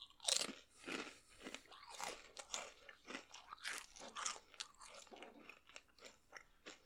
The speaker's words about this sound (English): This is kind of turning to like a ASMR eating in your ear kind of thing.